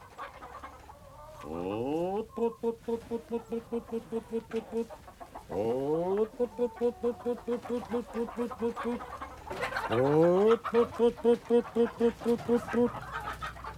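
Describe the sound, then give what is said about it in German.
A rooster clucks in a steady, rhythmic series of short pulses, broken three times by a strained, rising call. The sound is fairly loud, with no talk. “Ja, ich meine dich, Hahn.”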